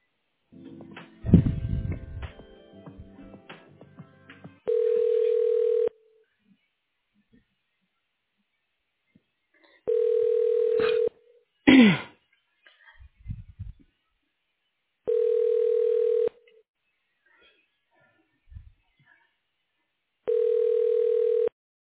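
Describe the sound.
A telephone ringback tone plays while a call is transferred to a director's voicemail. Four steady, single-pitched buzzing rings, each about a second long, are evenly spaced with silence between, plus a few brief line clicks and noises.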